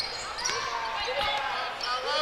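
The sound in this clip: Basketball dribbled on a court floor during a girls' game, a few faint thuds under continuous commentary.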